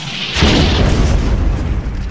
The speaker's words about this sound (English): They're flanking! Left! Left! Grenade out!